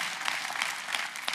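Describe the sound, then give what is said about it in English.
Church audience applauding, dense, steady clapping from many hands that holds at an even level throughout. “Come on, church, let's put our hands together.”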